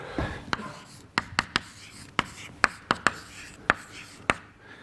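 Writing out an equation during a physics lecture: a series of sharp, dry taps and short scratches, irregularly spaced, with many distinct strokes over a faint background hiss.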